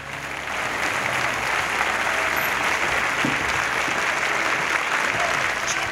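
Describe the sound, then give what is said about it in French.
Standing ovation applause for two guests arriving for a morning show, a steady wash of many hands clapping at even loudness for about six seconds, swelling slightly in the first half second. “standing ovation please.”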